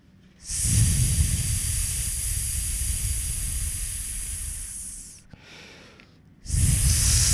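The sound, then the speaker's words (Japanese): A long breathy exhale pushed out through the mouth with the belly drawn in during a breathing exercise. A steady hiss lasts about four and a half seconds, then a brief softer breath, then another strong exhale begins. “そう口から吐くのね”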